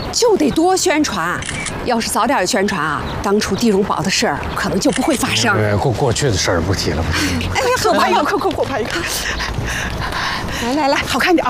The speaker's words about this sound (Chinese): 来来来，咱俩拍个照，我也蹭蹭你的流量。